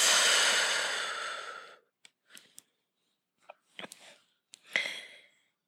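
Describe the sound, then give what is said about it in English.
A slow, deep exhale during a guided meditation: a long, loud breathy whoosh that gradually fades over nearly two seconds, followed by a few faint, brief mouth and breath sounds. “Big inhale, send that light down to your toes, out to your fingertips, washing through your body, and exhale.”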